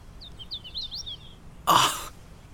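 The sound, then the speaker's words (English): A hooded warbler sings a quick run of high, bright whistled notes, faint and thin, followed by a single loud cough. “Do you hear that? Is that a prothonotary warbler? No, that's a hooded warbler.”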